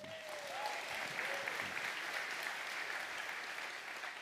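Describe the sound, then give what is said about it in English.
An audience applauds to welcome a speaker at a church campus gathering, with faint, even clapping that runs steadily from start to finish. “All right, friends, would you put your hands together and welcome Dr. Daryl Ferguson.”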